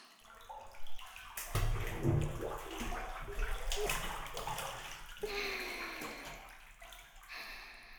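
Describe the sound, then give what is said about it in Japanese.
Hot bathwater sloshing and splashing in a narrow tub as someone climbs in, a few broad surges of movement followed by gentler lapping and drips, with no talk. “いいお湯加減ですね。湯船、二人で入るには少し狭いですけど、”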